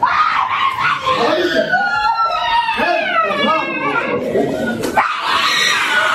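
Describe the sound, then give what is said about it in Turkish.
A mother wails and screams in grief after her young son's death in a swimming pool: high, wavering, sobbing cries that run loud and almost unbroken through the whole clip. “Annenin feryatları ise yürekleri yaktı.”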